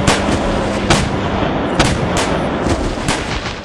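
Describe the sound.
Sharp shots from an air cannon and an air pistol fired through a fence at zombies outside a locked park gate, several cracking bursts at irregular intervals over a constant rushing background.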